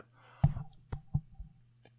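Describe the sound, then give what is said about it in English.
A microphone is knocked by accident, giving a few dull, bassy thumps at uneven intervals over a low steady hum, with no talk. “Sorry, I hit my microphone.”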